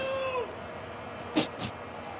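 A cat meows once near the start, a short tone that slides downward in pitch, heard over steady background noise.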